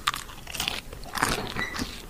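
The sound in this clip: Crisp crunching as someone bites into crispy roast potatoes from a small Christmas dinner plate. A few sharp, brittle crunches follow one another; no one talks.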